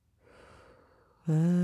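A deep breath drawn in during a guided breathing exercise: a soft, airy inhale lasting about a second, followed by an abrupt, much louder voiced tone at the end.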